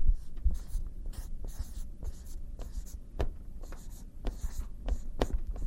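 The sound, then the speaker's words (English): Writing on a board during a talk makes scratchy strokes and sharp taps in an irregular rhythm, many short marks in a row with a soft hiss between them and no voices. “Here, I'll write it up here.”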